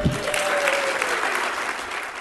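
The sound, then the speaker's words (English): An audience applauds a speaker's line at a political convention. Steady, dense clapping continues at an even level through the whole stretch. “An applause line there for Sheriff Clark”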